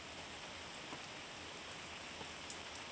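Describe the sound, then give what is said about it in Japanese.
Rain falls steadily, a soft even hiss of drops striking a surface, with occasional louder individual patters popping out of the wash. “雨って嫌なイメージあったけど、汗を流してくれてるみたいで、これは気持ちいい。”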